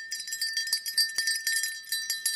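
Bright jingling of a small bell on a harness, a steady metallic tinkle with a few quick shakes over about two seconds, with no talk.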